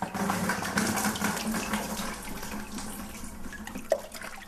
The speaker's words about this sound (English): That's the sound of making paper, a wet and messy business that human beings have been engaged in for centuries.